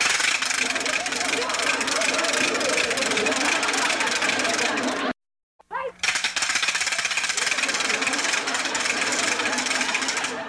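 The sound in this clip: Wooden ratchet rattle (matraca) being spun, giving a loud, dense, continuous clatter of rapid clicks that stops briefly about halfway through, then starts again just as hard.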